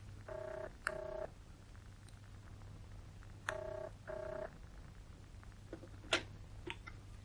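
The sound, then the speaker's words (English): A telephone number is dialed on a touch-tone phone. Four short beeps come in two pairs, followed by a few faint clicks over a low steady hum. “I picked up the telephone and dialed the number I'd taken from Hanley's file.”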